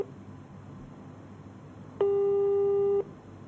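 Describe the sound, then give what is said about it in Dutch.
A telephone line tone sounds while a call is placed: one steady, pure electronic tone lasting about a second, starting abruptly and cutting off cleanly over faint background hiss. “Als we even later terug zijn in het hotel, bellen we Lorena meteen op.”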